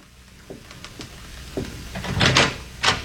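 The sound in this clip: A door is opened with a series of clicks and knocks, then a louder rattle of the latch and hardware toward the end.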